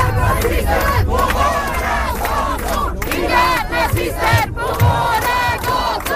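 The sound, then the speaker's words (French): Antifascist protesters in Gothenburg chant anti-Nazi slogans: a loud crowd shouting in rhythmic, repeated bursts, with brief gaps between phrases. “L'ambiance est tendue aujourd'hui à Göteborg, deuxième ville de Suède. On y entend des slogans anti-nazis scandés par des militants antifascistes, des citoyens ordinaires qui sont venus défier les néo-nazis du Nordiska Motståndsrörelsen”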